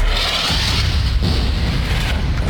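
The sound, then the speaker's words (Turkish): An explosion from an Israeli warplane airstrike on a civilian residential area of Deir el-Belah, Gaza: a loud, dense roar and rumble that holds steady across the whole span, with no voices. “Hedefte bu kez Deir el-Belah'taki sivil yerleşim bölgesi vardı. İsrail savaş uçakları bölgeyi bombaladı. Saldırı anı kameralara da yansıdı.”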